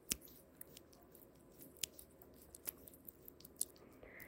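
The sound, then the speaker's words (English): Faint wet squishing sounds: a run of irregular soft smacks and moist clicks, some sharper than others, with no talking. “Hey, you wanna hear how wet my pussy is right now? Wanna hear how sopping wet this aching cunt is? Here.”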